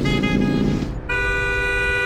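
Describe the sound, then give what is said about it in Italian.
A car horn honks loudly in two long, buzzy blasts. The first gives way to a brief dip, and the second holds steady to the end over a low rumble of traffic. “Ma devi proprio strombazzare come un cretino ogni volta che ti sorpassa?”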